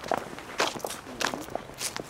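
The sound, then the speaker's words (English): Footsteps walking down stairs on an outdoor path through cemetery gardens, a few uneven, fairly soft steps at a relaxed walking pace with no talk over them. “Here, we'll go down these stairs and get cut through.”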